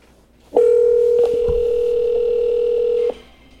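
A telephone dial tone plays while a number is called back: one steady, loud, unbroken hum that lasts about two and a half seconds and then cuts off, with no voices over it.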